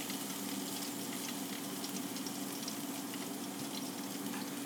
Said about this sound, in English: What you hear, continue to hear, I'll cut this off just a minute, is my fan over the stove.